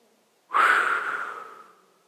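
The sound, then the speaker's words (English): A single deep breath taken during a breathing exercise: a sudden, airy rush that starts abruptly and then slowly fades out, fairly soft and alone. “Does that feel good? Get some good breath in your lungs, some fresh air”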